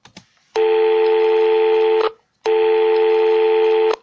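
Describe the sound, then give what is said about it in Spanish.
An incoming phone call tone sounds as two long, steady electronic tones of equal length, loud and clean, separated by a short silence. “Oigan, tenemos una llamada entrante.”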